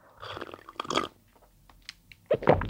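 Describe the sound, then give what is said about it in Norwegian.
Soft mouth sounds of someone sipping lukewarm coffee: a few short, wet slurps and swallows separated by quiet gaps, with a louder cluster at the end. “Sorry, jeg må drikke kaffe.”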